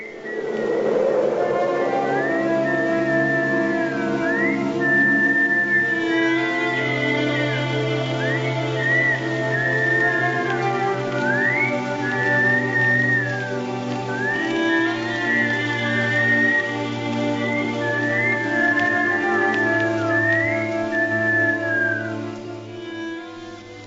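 Melodic whistling in a film scene, a tune of short gliding and sliding notes carried over a sustained, low accompaniment that runs throughout, with no speech.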